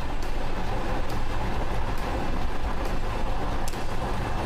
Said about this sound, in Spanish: Justo en este momento el metro, el metro se ha detenido por completo. Las puertas se abren.